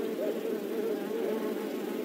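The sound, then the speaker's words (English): Bees buzzing loudly as they fly, a dense, continuous, steady drone with a slightly wavering pitch throughout. “and they make a loud buzzing sound as they fly.”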